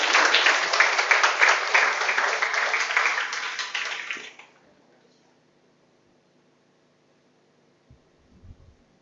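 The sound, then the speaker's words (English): An audience claps to welcome a Zen master. The full, steady applause lasts about four seconds and then fades out into near silence, with a faint brief rustle near the end. “Let's put our palms together and welcome Master Zen.”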